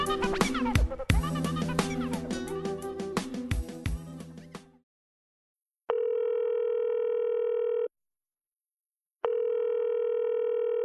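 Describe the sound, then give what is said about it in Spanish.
Telephone ringback tones from a call to an answering machine. After a stretch of music ends, two long, steady, evenly pitched tone bursts sound, separated by a pause of silence. “Estás llamando al contestador automático de Rompiendo el Aislamiento.”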